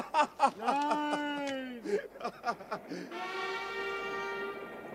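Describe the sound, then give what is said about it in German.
A train sound effect from a German radio drama about a railway signalman: a steady, horn-like tone with strong harmonics holds through the final seconds, following a wavering, voice-like tonal passage with rising and falling pitch. “Nein! Braxton! Der Zug! Aufpassen!”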